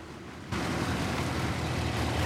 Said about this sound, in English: Bert puts down his razor and wipes his face as the car pulls up alongside his.